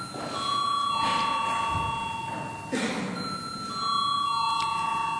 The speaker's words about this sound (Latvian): Lūdzu zvanu.